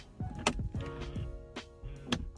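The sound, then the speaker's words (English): A BMW car door's soft-close mechanism pulls it shut, a faint motorised whir with a few soft clicks and thuds. “Here's the soft closing door.”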